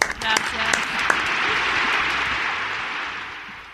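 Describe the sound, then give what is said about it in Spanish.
Audience applause: dense, steady clapping that runs for several seconds and slowly fades, with a few brief shouts and voices in the first moments. “Y damos otro aplauso a Vicky María.”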